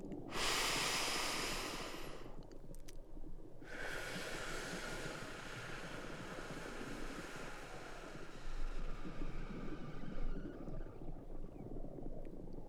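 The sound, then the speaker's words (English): Slow, deep breathing in and out during a calming relaxation exercise: long, soft, airy inhales and exhales, faint, over a steady whooshing background like surf. “Let's start off by taking a deep breath in and a deep breath out.”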